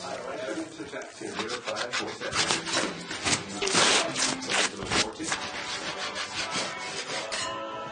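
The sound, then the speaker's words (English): Wallpaper being scraped off a wall: a long run of rough, rasping scrapes that are denser and louder toward the middle, with no voices. “Sarah is back to scraping wallpaper.”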